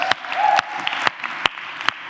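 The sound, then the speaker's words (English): An audience applauds as a volunteer comes up at a church talk, a steady wash of clapping with a few sharper, louder claps standing out throughout. “Give Joe a round of applause as he comes up.”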